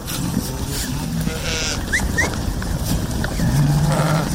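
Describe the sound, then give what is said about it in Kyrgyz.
Sheep bleating on a mountain pasture, where a flock of about 500 head grazes. One low bleat sounds near the end, over a steady bed of outdoor noise. “Бияк койлорум меники. Азыр канча коюңуз бар? 500 баш бар.”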